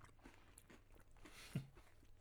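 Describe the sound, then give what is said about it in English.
People chewing food close to a microphone: faint, soft bites and chewing, with one sharper crunch near the end. “Oh, that is gross that we're all chewing into the microphone”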